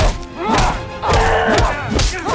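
Fistfight in a corridor: a man and woman shove each other into the walls, then he pins her on the floor and punches her face. Several heavy thuds and blows land at an uneven pace over a steady tonal background.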